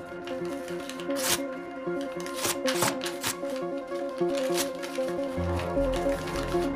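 Paper ripping as pages are angrily torn out of a notepad and shredded, several sharp tearing bursts over a steady tonal music bed.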